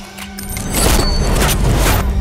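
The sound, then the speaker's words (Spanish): A reversed gunshot from the Tenet trailer: a loud, dense boom that swells in rather than bursting out, then holds as a thick, roaring wash. “Aim it and pull the trigger.”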